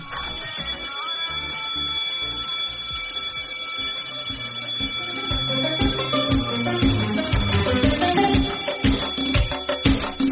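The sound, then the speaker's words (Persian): A school break bell rings loudly and without pause for about ten seconds. The bright metallic jangle holds steady over a busier, rhythmic layer of lower tones. “زنگ تفریح رو بزن بره.”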